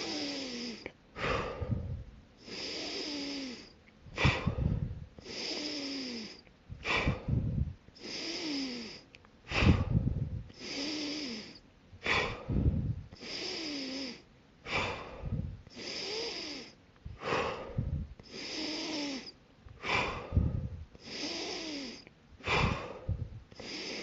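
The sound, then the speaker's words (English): Rapid deep breathing from a guided breathing exercise, many forceful in-and-out breaths into the lower belly repeating in a fast, even rhythm, each a sharp airy rush, with no talking over them. “Now that you've taken your 30 breaths”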